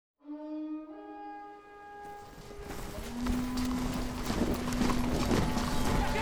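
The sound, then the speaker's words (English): Galloping horses of an English cavalry charge uphill at Falkirk: a sustained tonal note at first, then a dense, rumbling drum of hooves that builds in loudness and stays steady to the end. “Tens of thousands of English troops break into a hoof-pounding cavalry charge and heart-pounding infantry run up the hill at Falkirk.”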